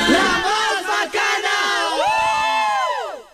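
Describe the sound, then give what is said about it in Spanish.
Noisy commotion of people at a dinner table: many overlapping voices shouting, whooping and cheering in a dense, loud burst that eases slightly at the end. “Para Zenú, cuando en la mesa hay bulla, es porque las salchichas quedaron deliciosas.”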